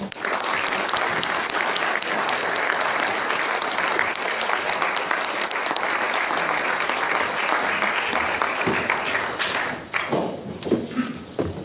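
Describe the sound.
Warm applause welcomes a speaker at the National Press Club: a dense, steady wave of clapping goes on for about ten seconds, then thins into scattered claps.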